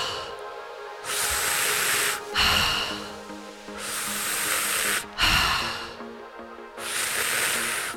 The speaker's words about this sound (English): Third and final round. 30 breaths.